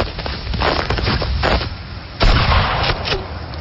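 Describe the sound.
A rifle gunshot: one loud, sharp report cuts in about two-thirds through, over steady hissing background noise.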